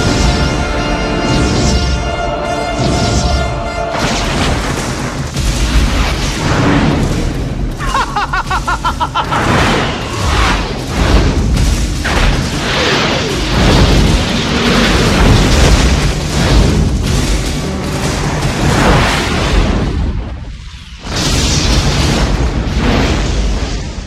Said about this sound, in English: Trailer's like just stuff exploding.